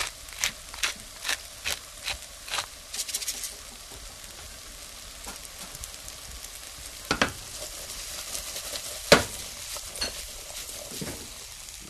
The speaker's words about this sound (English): While the potatoes cook